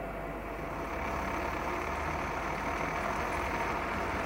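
A machine revs up to machine a part, giving a loud, steady, low engine-like drone that grows a little stronger after the first second and then holds even.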